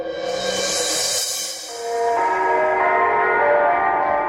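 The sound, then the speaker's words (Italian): Church bells ringing in Rome: several sustained, overlapping metallic tones hum and shimmer, swelling again with a fresh strike about halfway through and ringing on steadily to the end. “E qui a Roma, dove le campane ricordano incessanti che nella città eterna è ancora il Papa Pio IX a regnare sovrano”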